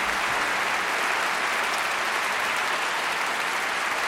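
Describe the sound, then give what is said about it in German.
Audience applause for the WDR Funkhausorchester in the large broadcast hall of the WDR Funkhaus, a dense, steady wash of many hands clapping at an even loudness throughout, with no break. “Ein Riesenapplaus bitte nochmal für dieses sensationelle Orchester.”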